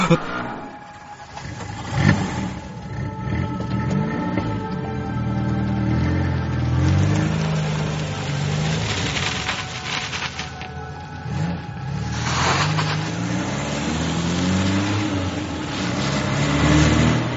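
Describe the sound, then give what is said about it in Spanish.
An old truck engine cranks and revs in a dramatized scene, its sustained mid-pitched roar surging up and down several times and staying loud throughout. “Tan solo el viejo camión con la puerta abierta. Tengo que arrancarlo como sea. Por favor, arranca. ¡Arranca!”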